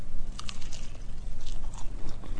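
Crunchy biting and chewing into a toasted, golden-brown grilled rice ball topped with whitebait and soy sauce; many dry, crackling crunches recur steadily, close and moderately loud, with no talk.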